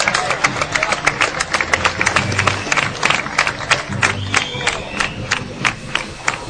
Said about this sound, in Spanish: Fuerte aplauso, por favor.